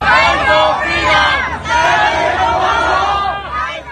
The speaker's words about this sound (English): So they're still out there chanting, fight for freedom, stand with Hong Kong.